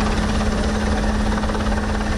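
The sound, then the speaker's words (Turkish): Helicopters deployed in a sea search-and-rescue drill produce a loud, unbroken rotor drone with a constant low hum underneath, steady in volume throughout and free of speech. “Helikopterler, uçaklar ve sahil güvenlik botları bölgeye sevk edildi.”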